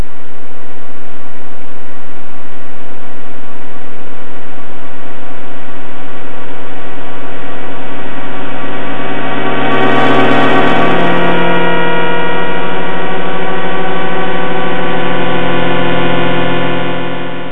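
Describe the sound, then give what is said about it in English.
Sonified millisecond pulsars, spinning with periods of a few to tens of milliseconds, sound during a fly-through of a globular cluster as a loud, dense chord of steady buzzing tones that swells with a brighter hiss midway, then settles back. “so-called millisecond pulsars, because they spin with periods of several milliseconds, tens of milliseconds. And this is a sort of recording of a fly through this globular cluster.”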